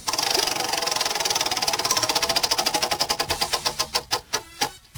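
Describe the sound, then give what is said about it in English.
A wheel of topics spins with a rapid run of ratchet clicks that gradually slow and spread apart, the final few ticks sharp and distinct as it comes to rest. “I'm going to spin the wheel of topics right now.”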